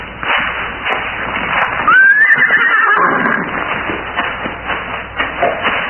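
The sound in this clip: A horse neighs as a rider mounts it, one loud, shrill whinny that wavers high and then drops away, set against a steady bed of rough background noise.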